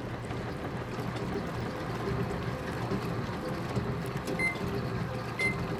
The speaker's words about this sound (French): La machine commence à tourner. Tête en haut, tête en bas.